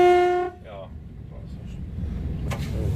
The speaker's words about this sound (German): Der Triebwagen ist losgefahren.